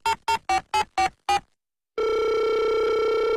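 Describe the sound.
A telephone line during a call to a gas station: six short, evenly spaced electronic ring tones, a brief silence, then a loud continuous steady tone. No voices are heard.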